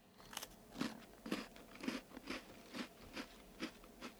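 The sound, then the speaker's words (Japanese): Crunchy butter cookie being bitten and chewed, a quiet, steady series of crisp crunches at fairly even intervals, heard alone without any talking. “よしではこちらのねバタークッキーいただきます”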